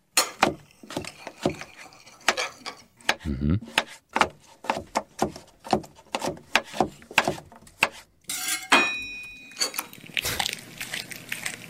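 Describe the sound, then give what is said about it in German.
Something is chopped in a kitchen with many sharp, closely repeated knocks in a brisk rhythm. A denser, scratchy stretch of sound follows near the end. “Also ich habe gehört, dass am Anfang irgendwas gehackt wurde. Es klang nach Küche. Bin ich da schon richtig? Da bist du richtig.”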